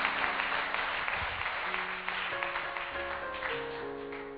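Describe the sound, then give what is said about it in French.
Faint, continuous applause from a church audience acclaiming the Lord, a soft even wash of clapping with sustained held tones beneath it. “Alléluia. Acclame le Seigneur.”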